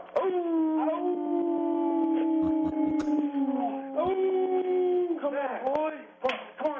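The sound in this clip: A dog howls on command to sing: a long, wavering, sustained howl whose pitch slides slowly, followed by shorter rising and falling howls, with a few sharp slaps or clicks scattered through.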